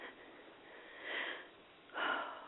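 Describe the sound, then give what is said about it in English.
Deep breath drawn in: soft, breathy air noise swelling in two gentle surges, quiet and alone. “Nice deep breath.”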